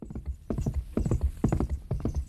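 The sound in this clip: Horse hooves galloping along a wide, dusty riverbank road, carrying a sword-wielding rider: loud, rhythmic clusters of heavy hoofbeats repeat about every half second in a steady gallop, with no voices.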